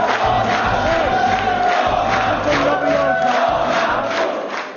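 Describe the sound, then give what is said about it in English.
Crowd celebrating at a Polish opposition party headquarters after exit polls on a general election evening, with a loud, continuous roar of cheering and shouting throughout. “That was the sound of celebration on Sunday evening at the opposition party headquarters after exit”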